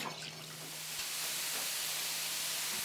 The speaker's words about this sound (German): Tomatenmark mit Rotwein aufgegossen. Und dann füllen wir es mit einer Lamm-Jü auf.